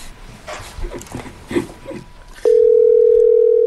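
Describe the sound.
Telephone call going unanswered: indistinct talk, then a loud, steady, unbroken line tone begins and holds to the end.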